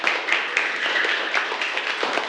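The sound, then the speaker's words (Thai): A classroom group clapping for a student who answered correctly, many quick overlapping claps in an even, brisk patter throughout. “ปรบมือให้กับสิทธิโชคด้วยค่ะเก่งมาก”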